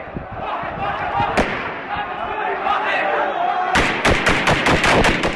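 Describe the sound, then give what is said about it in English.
Gunfire from security forces shooting live rounds at demonstrators: one sharp crack, then a rapid burst of several loud shots near the end, all over a constant noisy background with voices. “That's said to be the sound of Syrian forces firing live rounds at demonstrators yesterday.”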